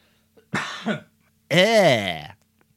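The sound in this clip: Someone with a dry throat gives a short, rough cough, then after a brief pause a longer, voiced throat clearing. Both sounds are loud and stand alone.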